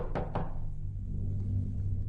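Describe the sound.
Two sharp knocks on a door, a quick pair in succession, then a low steady hum lingers alone with no voices.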